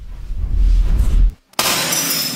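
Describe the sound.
Glass shattering as a hand mirror is smashed against a nightstand: a loud low rumble, a brief silence, then a bright, sustained crash of breaking glass to the end.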